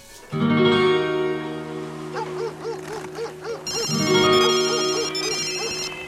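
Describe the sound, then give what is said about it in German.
A mobile phone rings with an incoming call: a loud electronic ringtone of sustained, harmonic tones with a repeating pattern, and a second, brighter phrase starting partway through. “Ein Anruf von seinem Mobiltelefon.”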